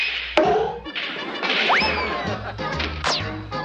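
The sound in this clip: A pool cue breaks a rack of billiard balls with a sharp, loud crack. Springy, sliding effects and other layered sounds follow without pause.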